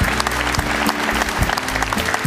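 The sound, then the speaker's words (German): An audience applauds the sports director of Hamburger SV with dense, steady clapping that keeps a loud, even level throughout. “erstmal Applaus für den Sportdirektor hier vom Hamburger Sportverein”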